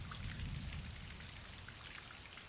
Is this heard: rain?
yes

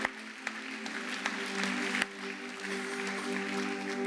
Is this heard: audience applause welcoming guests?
yes

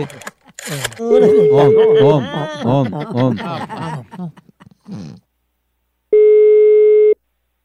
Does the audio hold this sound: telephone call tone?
yes

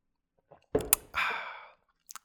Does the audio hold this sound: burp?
no

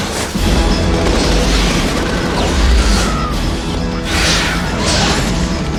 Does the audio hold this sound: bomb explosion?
yes

